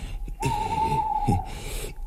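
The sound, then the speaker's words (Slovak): An owl hoots once, a single long, steady, mid-pitched call held for over a second over a low rumbling background. “a to iba sova húka.”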